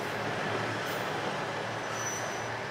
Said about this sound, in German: Die kleine Privatbahn fährt entlang der Küste und entlang vieler, vieler Kirschbäume.